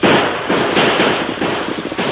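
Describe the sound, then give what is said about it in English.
Gunfire in a Western shootout with outlaws, a loud, rapid volley of shots blurring into dense, continuous crackling with no pause between them. “There, they emptied the bullets. I'll have to load her.”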